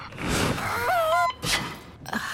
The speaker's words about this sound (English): Inhale. Exhale.